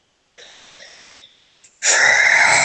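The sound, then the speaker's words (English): A deep, breathy inhale voiced by a narrator acting out a creature in a tabletop roleplaying game, drawn out and moderately loud. A much louder, rushing breath-like burst follows that sounds like a forceful exhale. “As you feel Zodak's eyes stare through the stones into your souls. As he inhales a deep breath.”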